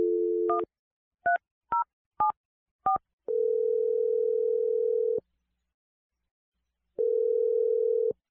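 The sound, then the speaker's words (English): A telephone dial tone gives way to five quick keypad beeps as a number is dialed, followed by two long, steady ringing tones separated by silence. “I'm going to dial his number right now. You ready? Yeah, thank you. Okay, here we go.”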